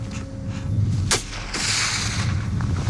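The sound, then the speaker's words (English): A rifle shot from a 7.62x54R Mosin Nagant with a PU scope, a seal-hunting gun fired skyward: a single sharp crack followed by a lingering broad rumble over steady background noise. “The first time I shot towards the heavens.”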